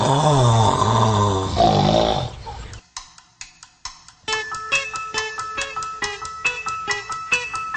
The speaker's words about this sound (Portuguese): Ele consegue roncar no meio de uma frase.